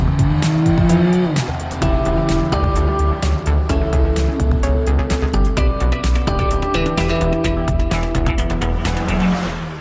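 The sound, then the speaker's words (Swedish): A sports car drives off with squealing tyres and a loud, continuous engine roar whose tones shift as it revs hard throughout. No voices are heard. “I avsnitt 290 av Vi Bilägares podcast testar vi sportbilar. På med säkerhetsbältet, för nu kör vi.”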